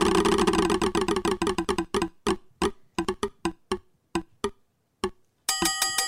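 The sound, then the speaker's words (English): A prize wheel spins on a game segment, its pointer clicking rapidly at first, then slowing to sparse, sharp ticks with growing gaps until it stops. A short burst of dense, tonal sound follows at the end. “Let's spin the wheel”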